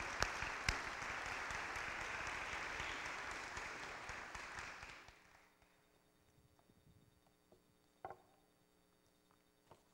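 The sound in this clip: Faint audience applause welcoming a speaker, with dense clapping that dies away after about five seconds into near quiet broken by a few small knocks.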